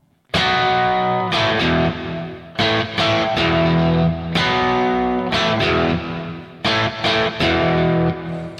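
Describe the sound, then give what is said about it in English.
A distorted electric guitar plays a rhythm part on a B power chord through coil-split pickups. Chords are struck in short repeated bursts separated by brief gaps, with no voices. “And here I'm using a B power chord.”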